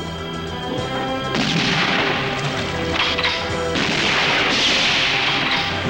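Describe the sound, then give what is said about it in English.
Gunfire shoots away and splinters the oars of a rowing boat: a loud, dense, continuous barrage of cracks, whacks and crashing impacts with no break, growing slightly harsher toward the end. “In the boat, an oar is shot away. Another is splintered.”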